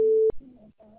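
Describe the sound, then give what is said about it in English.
A voicemail system beep signals the start of recording: a single steady, mid-pitched electronic tone lasting about a third of a second, cut off by a click, followed by faint low sounds. “Please leave your message after the tone.”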